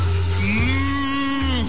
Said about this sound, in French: Les Vacas Locas, mon pote, c'est des vaches folles, évidemment.